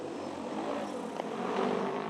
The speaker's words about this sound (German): Diese Drohne geht gleich in die Luft, um Landwirte zu entlasten. Das 60-Kilo-Gerät streut Saatgut aus der Luft auf die Felder.